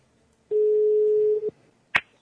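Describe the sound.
A steady telephone tone sounds while a call is being placed. It holds one even pitch for about a second, cuts off, and is followed by a single short sharp click.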